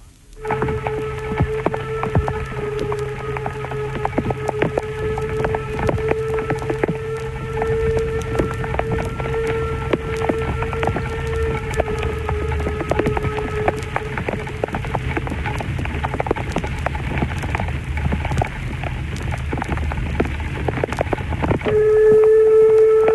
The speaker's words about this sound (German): Lok 99, 72, 38, der Harz-Querbahn vor Personenzug in strömendem Regen zwischen den Bahnhöfen Elend und Sorge.